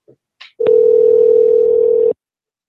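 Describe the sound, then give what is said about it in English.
Telephone dial tone heard while calling again after reaching voicemail: a loud, steady single tone lasting about a second and a half, preceded by a couple of faint brief clicks. “Right to voicemail. Let's see what happens if we call again.”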